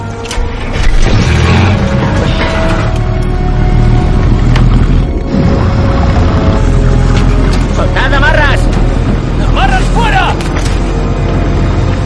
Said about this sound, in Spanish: El barco se pone en marcha y encienden los faros.